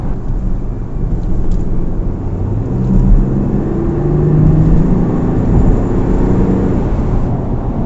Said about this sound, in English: Just pulled away at the lights and it certainly shifts. Right, let's get somewhere where I can go a bit faster.